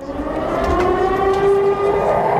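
Civil defense sirens sound on a town square in Niš, a loud, sustained droning wail with steady tones that hold through the whole stretch, with no voices.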